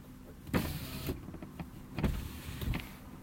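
Car power windows whirring as their motors run twice, each movement starting with a clunk and continuing as a steady mechanical hum, fairly quiet with no speech.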